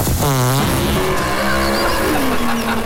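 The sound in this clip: A dragster racing car roars as it speeds away, its loud engine climbing in pitch through quick revving surges. The roar stays dense and continuous throughout.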